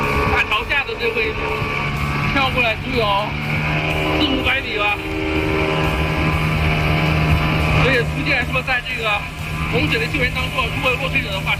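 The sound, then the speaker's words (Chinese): A rescue assault boat's motor drones steadily as it spins in place on floodwater during a simulated flood rescue on a river, a loud, continuous engine hum with shifting tone throughout. “等在下游的冲锋舟开始了他们的模拟救援任务。抓到我之后，操舟手就来了一个原地漂移，这确实让我上船的过程省时省力。”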